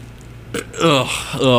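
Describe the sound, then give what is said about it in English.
A burp after eating chili: a brief burst, then a loud, low, voiced belch that rumbles on for under a second. “That's one of those chili burps, you know? We just had chili.”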